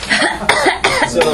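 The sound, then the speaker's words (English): Deliberate coughing, a few harsh, raspy bursts in quick succession, fairly loud and alone. “I'm going to cough all over your F-palm treats.”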